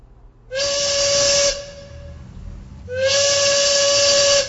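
Steam train whistle sound effect: two long, steady, high-pitched blasts with a hiss of steam continuing in the gap between them.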